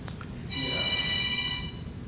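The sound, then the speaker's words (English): A telephone rings in one trilling burst lasting about a second, clear above a low background hum. “That's pretty loud ringer.”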